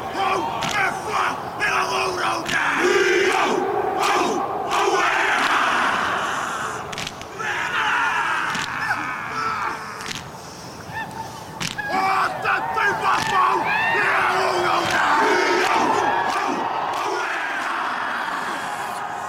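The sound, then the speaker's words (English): Haka performed by the All Blacks rugby team: many men chanting and bellowing together, loud and forceful, with crowd noise running continuously through nearly twenty seconds. “Now that is just a small sample of Haka performed by the championship rugby team, the All Blacks.”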